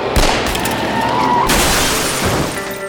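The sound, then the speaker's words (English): A Magnum revolver fires sharp, booming shots in a dramatized shootout on the street, a few harsh reports bursting out of a loud, dense wash of noise. “If you think I was good with a shotgun, you should see what I can do with this Magnum revolver. 6 shots, 3 head, 3 heart.”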